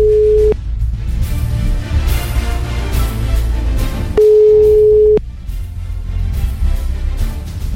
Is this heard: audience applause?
no